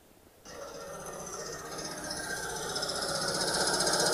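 A car engine after a starter motor replacement, played back from a video: a rough, rattling knock that kicks in abruptly and runs continuously, growing gradually louder.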